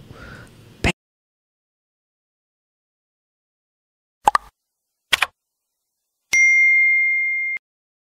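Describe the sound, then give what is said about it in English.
Notification bell sound effect, a clear bright ding that rings for about a second, preceded by a soft plop and a few sharp clicks spread over several seconds, with no talk. “notification bell is going to let you know when I go live.”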